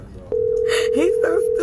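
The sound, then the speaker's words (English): A telephone tone sounds as a call is placed to a personal phone. The steady, mid-pitched tone starts abruptly and holds under brief talking. “Just gonna see if I can make her personal phone ring and then we're gonna go on to the company about this.”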